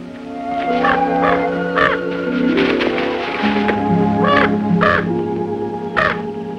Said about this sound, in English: As she kneels on the ground, sifting through a patch of dirt, the raven drops down beside her.